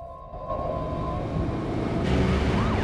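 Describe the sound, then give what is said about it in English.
Police car sirens passing, with the cars roaring by in the opposite direction: a loud, continuous engine roar and rumble throughout, with wailing siren tones rising and falling toward the end. “police cars roar past them in the opposite direction”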